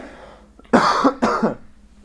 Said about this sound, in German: jetzt habe ich Spucke im Hals, Moment, ich muss nochmal husten.